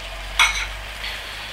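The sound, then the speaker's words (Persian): A spoon scrapes rice around the inside of a pot on a stove over a steady soft sizzle, with one brief distinct scrape followed by a fainter second stir. “قاشق دور قابلمه رو جمع کردم، حالت کپ مانندی درست کردم، زیر این گازه رو یه دونه دیگه کم میکنم”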